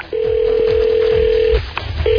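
A telephone emits a steady, loud electronic tone as a number is called. The tone holds for about one and a half seconds, pauses briefly, then resumes.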